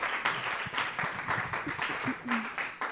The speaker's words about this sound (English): Can we give Ash a hand? Woo! Woo!